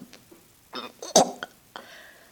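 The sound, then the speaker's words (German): Someone retches and gags from a sudden urge to vomit, producing a series of short, harsh throaty bursts with one louder heave in the middle. “Sorry, ich muss mich seit kurzem mehrmals am Tag ganz spontan übergeben. Ein Würgereiz.”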